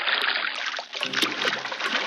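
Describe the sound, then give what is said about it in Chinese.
Running water splashes and sloshes as salt-rubbed beef lung is rinsed clean, a continuous, fairly loud stream of watery gurgles and trickles that briefly dips before swelling again. “搓过盐的牛肺用清水冲洗后，还要在热水中焯洗。”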